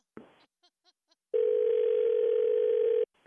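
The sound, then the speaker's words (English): Telephone dial tone after a call is disconnected: a click and a few faint blips, then a loud, steady, unwavering tone that holds for under two seconds before cutting off with another click. “I think we got disconnected.”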